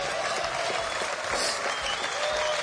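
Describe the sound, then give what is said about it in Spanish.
Audience applause for the tennis world number one, a dense, steady wash of clapping that stays loud and even throughout. “Escuchad cómo se emocionaba el número uno al recibir el reconocimiento del público.”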